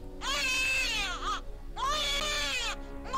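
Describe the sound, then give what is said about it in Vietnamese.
An infant's crying in two long, high wails separated by a short pause. Each cry strains and catches into a choked sob at its end, like an exhausted child. “nghe tiếng con nít khóc đó, nó ghê lắm. Tiếng khóc giống như sắp kiệt hơi, kèm theo cả uất nghẹn đến khó tả.”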